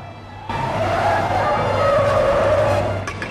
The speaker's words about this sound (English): A convoy of police cars pull up on all sides of a school building.